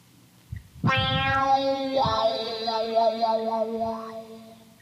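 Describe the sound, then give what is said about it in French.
A guitar note played through an amplifier's built-in effect gives a meow-like sound. It enters after a short soft thump, then sustains for several seconds with a wavering, wah-like sweep in its tone before fading. “Pourquoi on appelle ça une pédale wah-wah alors qu'en fin de compte ça fait miaou?”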